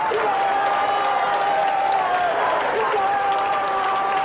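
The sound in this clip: Studio audience applause played as a sound effect by a robot on a kids' game show: dense, steady clapping and crowd noise that stays at an even level throughout.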